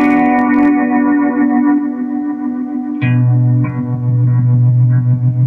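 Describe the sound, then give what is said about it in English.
Electric guitar with tremolo placed only on the delay chain sustains a loud, harmonically rich tone that drops to a lower note midway. The washed-out delay repeats waver gently throughout, and no voices are heard. “But then I put a tremolo just on the delay chain”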